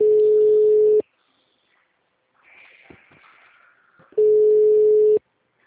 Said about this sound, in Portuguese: O número chamado está ocupado.